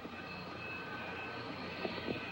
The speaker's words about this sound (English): Maston and the woman are flying aboard a Thrust Industries jetliner. The plane passes Mount Fuji in the distance.